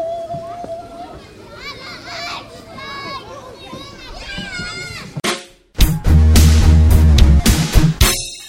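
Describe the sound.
Children playing outside at a kindergarten: many high-pitched young voices chatter, call and shriek over one another in a busy, continuous babble, followed by a sudden, much louder stretch of sound.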